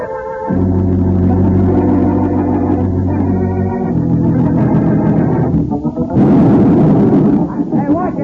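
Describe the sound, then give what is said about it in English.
A heavy explosive charge blasts at a construction site, leaving a deep, sustained rumbling boom that holds for several seconds. A fresh surge of crackling noise follows near the end. “Put too much of a charge in that one. Oh, that's what you're ruining the foundation.”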